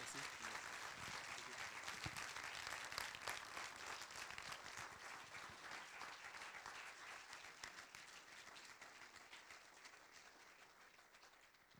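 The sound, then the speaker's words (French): Audience applause at the close of an evening event: dense, steady clapping that fills the whole stretch, loud and continuous, easing slightly toward the end. “Je crois que ça mérite vraiment un tonnerre d'applaudissements.”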